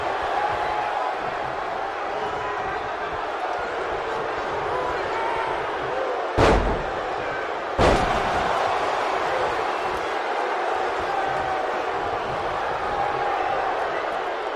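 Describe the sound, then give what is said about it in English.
Two heavy body slams on the mat during a wrestling match, Scott Hall's fall away slam, land as sharp booming thuds about a second and a half apart over continuous crowd noise and voices. “Oh, Scott Hall. Patented fall away slam.”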